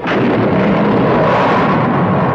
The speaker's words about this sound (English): Fly in the rocket ship of the future, 350,000 miles up.